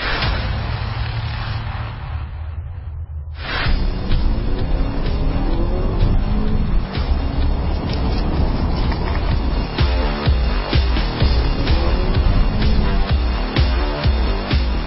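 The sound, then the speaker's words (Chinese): Mazda CX-5 and Volkswagen Tiguan engines accelerating and braking during a test drive: loud, steady engine and road noise that dips briefly early on, then holds strong throughout. “加速到大约呃五十到七十的速度啊，然后我们看呃车辆在制动之后啊，紧急的避让。”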